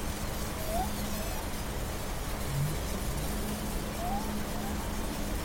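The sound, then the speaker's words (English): Underwater hydrophone ambience from Monterey Bay: a faint, steady noisy wash over a low hum, with a few soft, brief tonal glides. “We've moved now to another hydrophone from the Monterey Bay sticking with some air traffic control things.”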